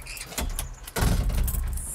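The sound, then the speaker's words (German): A door shutting at the secured otter enclosure in a zoo: a brief rattle first, then a louder, fuller shutting noise about halfway through that rings on briefly, with no talk. “Also mach gerade hinter dir die Tür zu.”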